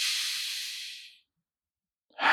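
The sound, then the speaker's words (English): Deep breathing during a guided mindfulness meditation: a long, soft, airy breath, then a pause of silence, and another breath starting at the end, with no voices. “And now all together, let's reconnect with our breath. We'll have a nice deep breath in”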